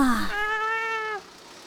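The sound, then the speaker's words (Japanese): A friendly cat, being picked up and petted, gives one drawn-out meow, steady and fairly quiet, that ends abruptly. “猫さんが可愛い？”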